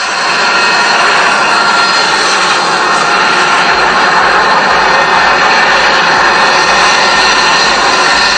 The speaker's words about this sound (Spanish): nos mandan otro vídeo del avión. Mira, este ya es, a ver si se escucha un poco. Este es aterrizando.